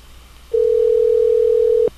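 A single steady telephone ringing tone sounds on an outgoing call, one continuous mid-pitched beep lasting over a second, clear and alone against faint background hiss.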